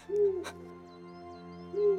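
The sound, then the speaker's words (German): An eagle owl hoots twice, low and rounded, with a long pause between calls. The hoots are fairly soft, and a brief click falls just after the first. “Ein Uhu ruft.”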